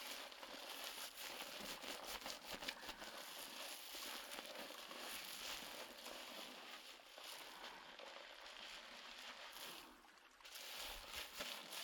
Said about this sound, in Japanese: 他に痒いところはございませんか？襟足ですね。カキカキ。シャカシャカ。